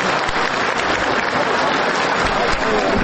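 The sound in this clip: Applause from attendees in a courtroom after a judge's ruling on prosecutors' requested bail measures: dense, steady clapping from many hands for the whole clip, with talk mixed in.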